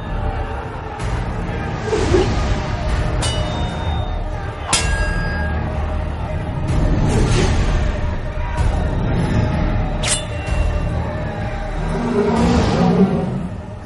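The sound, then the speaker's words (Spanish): An armoured van carrying mercenaries drives with a continuous engine rumble, broken by a few sharp metallic clanks. “Varios mercenarios viajan en una furgoneta blindada.”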